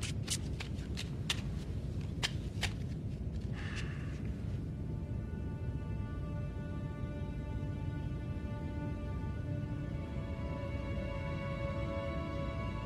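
Playing cards are shuffled before a game of five-card stud poker: a few sharp snaps, then a brief riffle, all fairly faint over a steady low hum.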